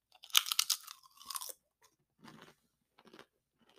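Sour cream and onion chips being bitten and chewed, starting with a loud, crisp burst of crunching, then a few softer chews spaced apart.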